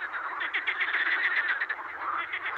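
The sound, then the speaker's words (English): Frogs croaking and ribbiting in a dense, continuous chorus of many overlapping calls, with fast rhythmic pulses that repeat steadily throughout at an even loudness. “In my mind, frogs ribbit and croak”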